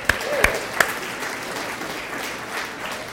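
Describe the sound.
A church audience applauds to welcome returning Moody students, a steady wash of clapping with a few sharper claps standing out near the start.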